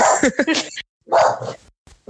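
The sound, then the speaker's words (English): A dog barks in a few sharp, irregular bursts, with a longer bark in the middle and a brief, faint bark at the end. “Sounds like my dog has an opinion. Sorry about the barking.”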